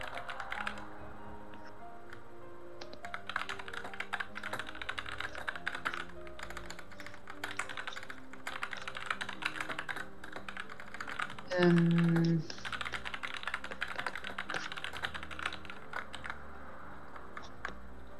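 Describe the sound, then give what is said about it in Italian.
Typing on a computer keyboard while something is written down: many quick, light keystrokes clatter in an uneven, steady stream over a soft humming background for the whole stretch. “Sì, dammi un secondo che lo scrivo.”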